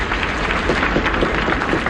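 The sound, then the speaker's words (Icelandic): A crowd applauds and cheers Vigdís as she steps out onto the balcony of her house after being elected president; the dense, steady clapping and cheering runs loud and unbroken through the whole moment. “Gengur Vigdís fram á svalirnar á húsi sínu og hún tekur við fagnaðalátum fólksins. Og hún tekur undir klappið.”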